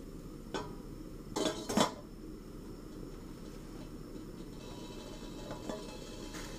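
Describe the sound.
Metal cooking pot of water set on the fire to boil for a sour soup, giving a few metallic clanks and knocks over a low, steady background rumble.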